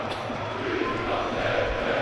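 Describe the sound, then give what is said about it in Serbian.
Crowd applause from Crvena Zvezda football fans during a match against Vojvodina, a dense, steady wash of noise with no single claps standing out, holding at an even level throughout. “Uz aplauze navijača Crvene Zvezde.”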